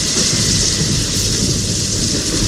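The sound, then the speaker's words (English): Thunder rumbles from an approaching storm with rain, a loud continuous deep roar under a steady hiss of rainfall throughout, with no voices. “The thunder seems to get louder and louder”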